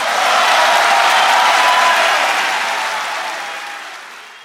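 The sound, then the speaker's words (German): Standing ovation from FC Bayern fans: dense, steady applause mixed with a faint crowd murmur. It is loud at first and gradually dies away toward the end. “Ja, da hört man im Hintergrund die Standing Ovations, denn die Fans vom FC Bayern, die sind ihm treu.”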